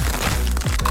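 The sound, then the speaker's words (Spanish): Crisp crunching of Crunch tortilla chips, a Costa Rican snack, being bitten and chewed. A few short, brittle cracks stand out over dense, crackly texture, with no talk. “Atrévete a probar el sabor único de Crunch, las tortillitas chips más crujientes”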